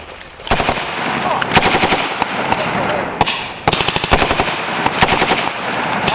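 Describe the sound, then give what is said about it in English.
Rapid machine-gun and rifle fire from U.S. Army infantry soldiers during a combined arms live fire exercise, a loud, dense string of many overlapping bursts that barely pauses across the whole stretch. “U.S. soldiers from Dog Company, 2nd Battalion, 506th Infantry Regiment, 4th Brigade Combat Team, 101st Airborne Division Air Assault conduct a combined arms live fire exercise.”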